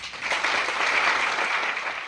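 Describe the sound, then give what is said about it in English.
Audience applause after a speech, a dense and steady clapping that stays loud and even for about two seconds without any talk. “Thank you very kindly for your heartwarming applause.”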